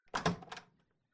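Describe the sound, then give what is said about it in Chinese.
A door being opened: a brief clunk and rattle of two quick knocks followed by a short fading scrape, alone and fairly faint. “怎么这么半天才开门啊？”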